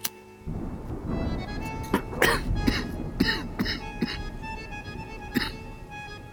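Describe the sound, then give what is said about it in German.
Someone coughs after lighting a cigarette: several short, harsh coughs and throat-clearing bursts in an irregular run, each sharp and fairly loud against a soft, steady background. “Ich zündete mir eine Zigarette an und musste husten.”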